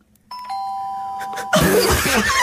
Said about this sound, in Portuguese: Fiquei na dúvida, ouço uma campainha e eu pergunto,